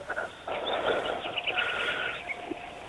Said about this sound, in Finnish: kun sieltä kuuluu lintujen laulua taustalla